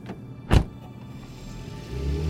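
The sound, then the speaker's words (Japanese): The driver-side door of a Toyota Prius opens with one sharp latch click, followed by quiet mechanical noise and a low rumble that builds toward the end. “奥田は運転席側のドアを開け、立ち止まる。”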